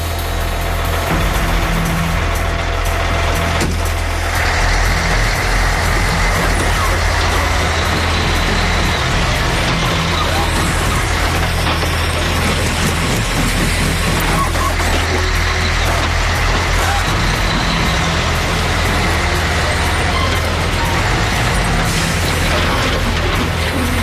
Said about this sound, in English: The brakes are stuck and the tires are frozen in ice. What a piece of ay, ay, ay. You want to try to rock it a few more times?